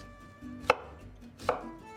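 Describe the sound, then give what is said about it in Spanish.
A knife chops an onion into small cubes, giving two distinct, crisp thuds on a cutting board spaced under a second apart over a low, quiet background. “vamos a picar ahora la cebolla. La vamos a picar también en daditos o en cubos.”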